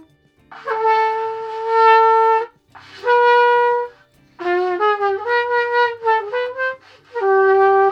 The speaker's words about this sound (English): my 11-year-old daughter learning to play trumpet and connecting with her instructor via Zoom.